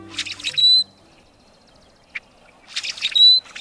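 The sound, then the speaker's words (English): A rusty blackbird sings two creaky, squeaky phrases, each a rough rasping cluster ending in a thin high whistle like an ungreased door hinge. One brief faint chip falls between them. “While it might sound like a door hinge that needs some grease, this is the song of the rusty blackbird.”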